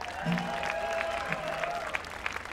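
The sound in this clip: Audience applause welcoming a mandolin and guitar player at a live show, a short burst of steady, dense clapping.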